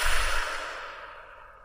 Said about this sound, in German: Einen tiefen Atemzug und wieder ausatmen. Nochmal tief einatmen und aus.